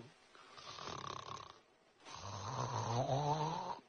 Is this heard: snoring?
yes